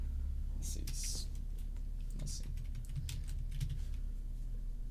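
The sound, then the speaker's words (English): Someone types a film search into a computer keyboard, producing irregular bursts of crisp key clicks with short pauses between them. A soft voice murmurs underneath. “I'm typing Pink Panther movie.”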